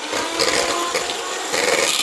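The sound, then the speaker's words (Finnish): An electric hand mixer whisks a chilled chocolate ganache mixture taken from the refrigerator, giving a continuous, fairly loud rasping whir with slight surges and no talk. “Vispilät kiinni, noin, töpseli seinään ja sitten pikkuinen vatkaus tälle jääkaapissa olleelle massalle.”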